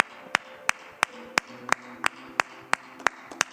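Hand clapping during a church gathering, about eleven sharp claps in a steady even rhythm, each a crisp loud crack, over a faint background hum with sustained tones beneath.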